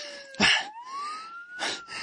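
A police siren sweeps slowly upward in pitch, its steady rising tone broken by two loud bursts of rough, noisy sound.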